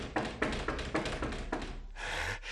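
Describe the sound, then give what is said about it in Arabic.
Knocking on a door, heard as a series of evenly spaced, hollow taps in a steady rhythm. “ها هو ذا آت سيطرق الباب،”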